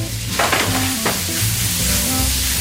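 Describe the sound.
Smoked lardons sizzle in a pan for an old-fashioned recipe, a steady, loud frying hiss with a few brief scraping stirs near the start.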